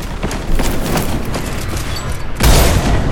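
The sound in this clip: Dense gunfire and sniping in a video game: continuous crackling shots and booms, with a sharply louder burst of fire near the end.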